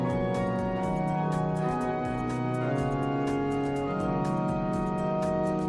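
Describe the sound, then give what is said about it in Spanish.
The restored Epistle pipe organ of Granada Cathedral plays full, sustained chords rich in stacked pipe tones, with quick articulated notes over the held harmony at a steady loudness and no voices. “El órgano de la Epístola de la Catedral recupera su voz original después de la restauración de 4 años con fondos públicos.”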